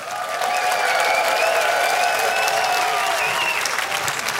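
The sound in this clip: Live audience at an Umbria Jazz concert applauding to greet radio listeners: dense, steady clapping that holds at an even level throughout, with some cheering mixed in.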